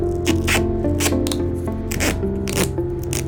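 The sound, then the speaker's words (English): Duct tape being torn from the roll and pressed on, several quick, rough ripping bursts over a steady low hum. “Do it. Taper. Aye, aye. Just stay still for a moment. Duct tape. Is there anything it can't fix?”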